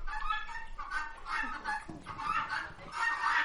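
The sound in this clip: Chickens clucking on a farm where they are kept together with guinea fowl: a steady run of many overlapping, fairly loud clucks and short calls throughout, with no talking.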